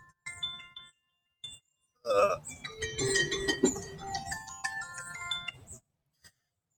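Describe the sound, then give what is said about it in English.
A mobile phone alarm rings in Puerto Jiménez, Costa Rica: a bright, melodic electronic ringtone of chiming tones that plays for about four seconds and then cuts off. “And that's my phone, which is a party foul, right? Let me get that for a sec.”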